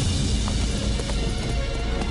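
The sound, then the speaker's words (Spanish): Hoofbeats of horses galloping across the steppe of Inner Mongolia, a steady, dense rumble of running hooves that stays loud and continuous throughout. “Cabalgando por la inmensidad de la estepa.”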